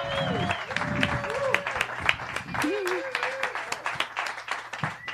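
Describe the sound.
Audience applause welcoming a guest onto a show: scattered, crisp claps at a moderate level, mixed with voices calling out over them throughout.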